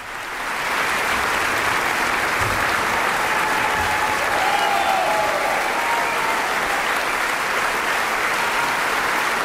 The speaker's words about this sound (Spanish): Y ya escuchamos cómo el público de Carintia, entusiasmado en este concierto celebrado el pasado 2 de agosto, reclamaba al intérprete, al joven pianista Lucas Sternad,